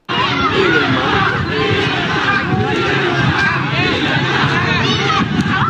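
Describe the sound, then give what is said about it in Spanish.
A crowd of people walking and protesting along the Malecón in Cuba, heard as a continuous, loud jumble of overlapping voices and chatter with no pauses, holding a steady level from start to finish. “Y aquí está, vean, sigue la gente caminando protestando.”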